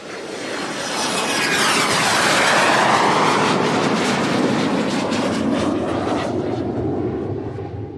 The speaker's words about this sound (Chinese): 飞机带着引擎的轰鸣声冲上天际